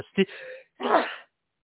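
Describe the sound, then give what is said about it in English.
A single human sneeze: a short voiced catch of breath, a brief pause, then a noisy, breathy burst lasting about half a second. It stands alone with no talk over it. “sneeze.”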